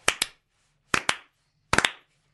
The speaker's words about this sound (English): Can I just be the first to start the slow clap?